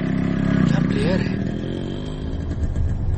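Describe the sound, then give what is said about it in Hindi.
A motorcycle engine rumbles loudly and revs briefly before settling into a steady, low drone, with voices heard alongside. “युवराज ने kit अपने कंधे पर टांगा, bike start की और चला गया।”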